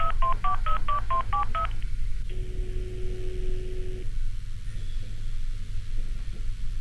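A rapid run of telephone dialing keypad tones beeps in quick succession, then a single long ringing tone sounds for a call that goes unanswered, all over a steady background hiss.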